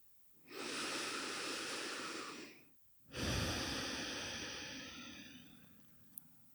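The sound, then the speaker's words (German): Deep breathing in and then out during a seated meditation: two long, airy breaths, the first held steady for about two seconds and the second starting louder before slowly fading, followed by a tiny click. “Atme tief ein und aus und schließ deine Augen.”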